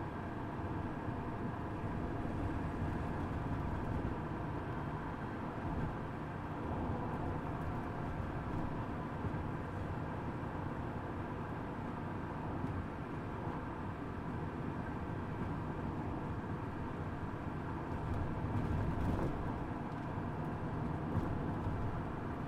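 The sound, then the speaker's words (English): Steady, dense roar of highway traffic as cars, among them German luxury sedans such as a Mercedes and a BMW, speed along the road; the rumble stays even throughout, with no distinct individual passes standing out. “Look at all these shitheads in these German luxury sedans. There's a Mercedes. Here goes another BMW with New York plates. flying down the highway.”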